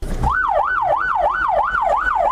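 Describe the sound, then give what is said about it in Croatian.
Police, fire and ambulance sirens sound at the start of a Red Cross rescue drill: a loud wail rises and falls in an even cycle six times over a low engine rumble. “Policijske, vatrogasne i sirene medicinskih ekipa hitne pomoći označile su početak uspješno provedene akcije spašavanja”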